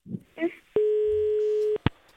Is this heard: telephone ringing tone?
yes